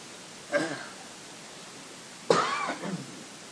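Coughing with phlegm in the throat during winter: two separate coughing bursts, the second longer and rougher, moderately loud with no talk.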